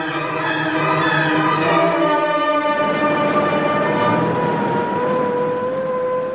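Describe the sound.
A car engine accelerating, a loud, steady harmonic roar that shifts in tone partway through and carries on for several seconds with no voices.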